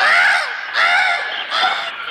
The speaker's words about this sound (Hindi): बच्चों, इतना कहकर कौवा उड़ गया।